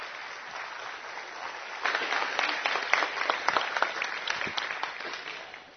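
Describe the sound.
Audience applause greets a guest invited onto the stage by a middle school ministry leader. The clapping starts as a moderate patter, then swells into dense, steady applause with sharper individual claps, and fades at the very end.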